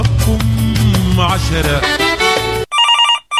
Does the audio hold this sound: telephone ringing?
yes